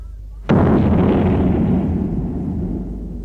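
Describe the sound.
A cannon fires a single shot after being reloaded: one deep, loud boom breaks in sharply, then a heavy rumble slowly fades over the next few seconds, with no voices.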